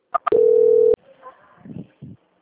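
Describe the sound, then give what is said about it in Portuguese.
A telephone call-transfer tone on a dropped call: two short beeps followed by a steady mid-pitched tone lasting about half a second, then softer muffled sounds and brief voice-like murmurs. “caiu a ligação, só um pouquinho que eu vou transferir, tá? Ah, agora sim. Transferência.”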